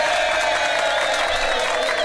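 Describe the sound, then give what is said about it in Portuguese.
Steady, dense clapping from a studio audience fills the whole stretch as a TV show host calls for a round of applause for a colleague's birthday, with no voices standing out above it. “Cadê a salva de palmas pra ela? Pelo amor de Deus, uma salva de palmas pra essa mulher.”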